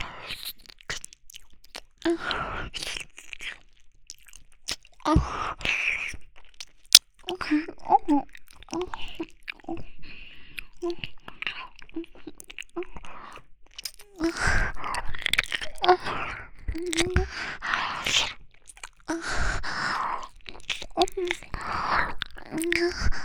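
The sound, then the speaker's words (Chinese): Big, hard crunchy food is bitten and chewed in many loud, crisp crunches and wet mouth sounds in an irregular run, with brief pauses and soft whispering at times. “好吃呀，又大又好吃，又好硬啊，好喜欢。”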